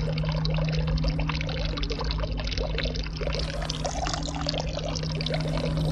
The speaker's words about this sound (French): De l'eau, toujours de l'eau qui coule sur les ponts.